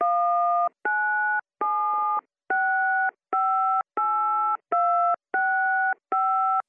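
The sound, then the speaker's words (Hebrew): Telephone tones from dialing out: a steady series of nine loud electronic beeps, each about half a second long with short gaps between, in the clipped on-off pattern of a busy signal, with no talk. “טוב, אני אנסה לחייג.”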